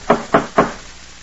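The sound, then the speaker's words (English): Three loud, evenly spaced knocks from a fancy door knocker on a door in a remote place, sharp and solid, then a quiet pause with no answer. “Funny they'd have a fancy door knocker like this way up here. Nobody answers.”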